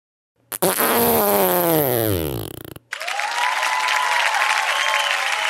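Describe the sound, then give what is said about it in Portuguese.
A long fart from a competitor in the light category of a farting contest, with a buzzing, falling pitch over about two seconds. A burst of loud applause and crowd noise follows right after it ends. “O nosso competidor está se preparando. Vamos acompanhar como é que foi o peido”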